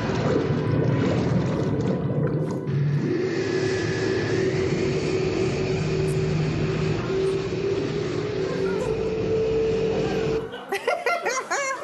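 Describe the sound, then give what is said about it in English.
A gondola that turns into a hovercraft in the James Bond film You Only Live Twice roars with a loud, steady engine whir and rushing noise. It cuts off near the end, and voices follow. “The old gondola hovercraft trick.”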